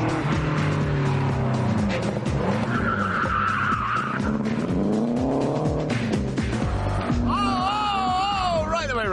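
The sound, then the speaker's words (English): Race car oversteering and skidding through a hairpin bend on a racetrack: a loud, continuous engine roar under sustained tire squeal, with the squeal wavering up and down in pitch near the end. “So that was an extreme case of oversteer. A very extreme case of oversteer.”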